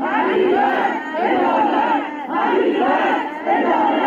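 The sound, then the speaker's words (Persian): Victims' families shout for justice together at a protest at Imam Khomeini Airport, holding photos of the victims and flowers. Loud massed voices chant in repeated rhythmic bursts, each followed by a short dip. “همچنین خانواده‌های قربانیان این حادثه با در دست داشتن عکس قربانیان و شاخه‌های گل در فرودگاه امام فریاد دادخواهی سر دادند.”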